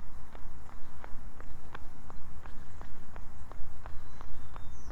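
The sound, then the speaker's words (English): Footsteps of a person out for a run: many quick, evenly spaced footfalls in a steady running rhythm over a constant low rumble. “And I'm out for a run.”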